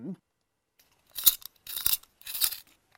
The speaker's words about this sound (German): Ich bin gerade noch dabei, meine Buntstifte alle anzuspitzen.